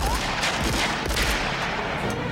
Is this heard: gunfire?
yes